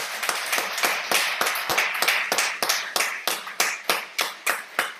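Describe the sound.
A church audience claps in praise during a French-language service: many sharp, evenly spaced claps in a steady rhythm, loud and distinct, with no voices over them.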